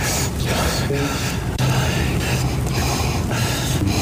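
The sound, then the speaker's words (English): A man's breaths cut together from a televised address: a series of short, airy inhales and sniffs over a steady background, with no clear words. “This is Mocha's supercut of Donald Trump just breathing last night.”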